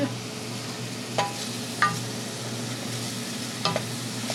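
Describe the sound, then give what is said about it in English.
Onions sauté in a pan on the stove for soup, giving off a steady, soft sizzle broken by a few clinks and scrapes of stirring. “On the stove, she sautés onions for the soup.”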